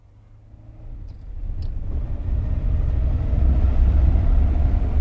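A car is driven off, its low engine rumble swelling steadily louder and then holding as a heavy, even drone, with no voices.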